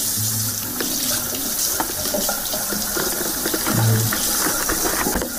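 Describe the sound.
Tap water runs steadily while a three-month-old baby girl is bathed, a continuous even splashing stream at moderate loudness with no voices.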